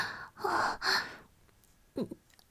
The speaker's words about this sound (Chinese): 我有一点呼吸不了，所以可能这个喘息声会重一点。